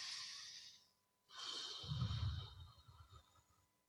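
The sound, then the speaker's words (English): Someone takes a breath: a soft, airy rush of air, a short pause, then a longer, faint breath with a low, rough rumble in the middle that fades out. “Take a breath.”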